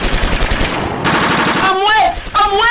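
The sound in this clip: Gunfire in a violent clash with shots from all sides: loud, rapid bursts crackling in quick succession, dense and continuous, with a wavering tonal sound rising through the latter part.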